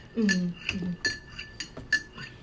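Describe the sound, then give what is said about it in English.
A spoon clinks against a cup while sugar is stirred into tea. Several sharp, bright metallic taps ring out at uneven intervals, with a faint low murmur near the start. “sorry for the noise. I did not stir my sugar in my tea.”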